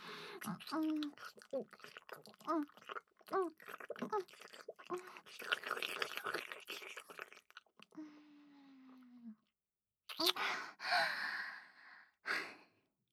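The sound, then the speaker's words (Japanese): Kissing, soft wet smacks in irregular bursts mixed with sighs and breathy exhalations, faint and intimate, with brief pauses between clusters. “先生のファーストキス、ごちそうさまでした。キスはこれくらいにして”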